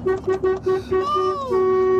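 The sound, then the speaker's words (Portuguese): A car horn honks in a rapid series of short blasts, then holds one long steady blare to the end. “E o outro continua buzinando ainda aqui.”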